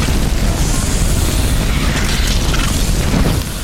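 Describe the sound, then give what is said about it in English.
A glowing creature explodes in a fantasy wizard video game: a loud, dense, rumbling boom with broad noise that holds steady throughout and drops slightly at the very end. “Whoa, he just exploded.”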